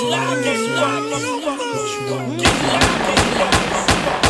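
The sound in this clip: Gunshots crack out in a rapid series of many sharp bangs, right after a voice heard wailing and shouting.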